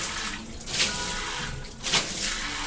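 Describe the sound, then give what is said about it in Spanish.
A shower runs with a steady, hissing spray of water that swells slightly twice, with no voices. “Este es el sonido normal de una ducha.”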